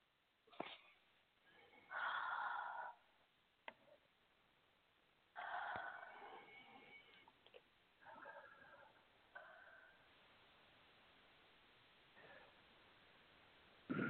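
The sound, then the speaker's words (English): Three slow, deep breaths, each a soft rushing swell of air separated by quiet pauses, with faint clicks in between. “And if you are willing to accept this small shift in your life, say yes. Yes. And three nice deep breaths.”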